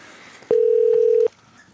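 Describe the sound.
A telephone dialing tone sounds as a caller places a call into a quiz line: one steady mid-pitched beep, held for under a second, rising sharply out of a faint background and then cutting off.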